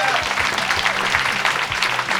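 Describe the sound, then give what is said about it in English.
A live comedy show audience applauds in a loud, dense, continuous burst of many hands clapping, with some voices mixed into the crowd noise. “Round of applause.”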